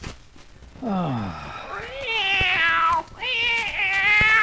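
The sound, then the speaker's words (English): Cartoon cat meowing in a hotel room at night, three long, loud, wavering meows, each rising and then falling in pitch, with short pauses between them. “you gotta get that cat out of here. He's keeping me awake.”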